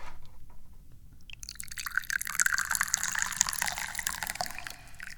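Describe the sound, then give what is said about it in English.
Tea being poured into a cup, a faint, continuous splashing trickle that begins after about a second of near-quiet and runs steadily to the end before tapering slightly. “I am, however, the chairman of the Dubious Goals Committee, a role that I take extraordinarily seriously, especially when I'm pouring the tea.”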